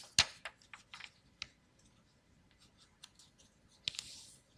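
Paper is folded along marked lines, giving faint, crisp crackles and sharp clicks in irregular bursts, with a few louder snaps among quieter rustling.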